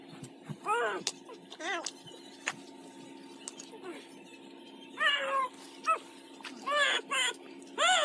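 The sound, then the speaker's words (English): A cat meows many times in short, high, wavering calls that come in uneven bursts and stay fairly faint, with scattered clicks and a low steady hum underneath. “Well, that's a cat, right?”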